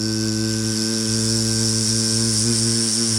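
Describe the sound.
A voice imitates the buzz of an eye laser with a loud, steady droning hum that holds a constant pitch for about three seconds.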